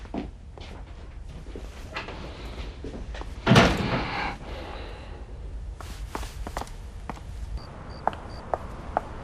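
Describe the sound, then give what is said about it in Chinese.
A door being closed: one solid thud lands midway through, among shuffling footsteps and scattered light knocks and clicks. A few faint, sharp taps follow afterwards. “过来， 把门关上。”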